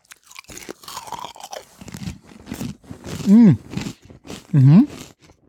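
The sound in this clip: Polish potato chips are crunched and chewed, with a few crisp bites and brief hummed vocal sounds between them.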